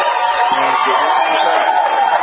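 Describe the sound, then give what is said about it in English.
Crowd cheering and whooping at a live event at the airport in Tampa, a continuous, even roar of many voices with no clear breaks. “And you're getting a better round of applause there.”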